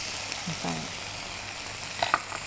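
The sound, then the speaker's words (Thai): Noodles with brown sugar sizzle as they are stir-fried in a pan, making a steady, soft frying hiss. A few scraping stirs and light clinks stand out toward the end. “เราผัดคลุกเคล้าให้ทั่วพอส่วนผสมเข้ากันกับเส้นดีแล้ว”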